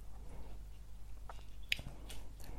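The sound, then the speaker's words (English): A pet animal crunches its food: a few faint, sharp crunching bites scattered across quiet background hiss, with one brighter crunch standing out. “I suppose it's quite nice, the sound, because you know I've got this wild animal running around in my flat, having a good old crunch on his food.”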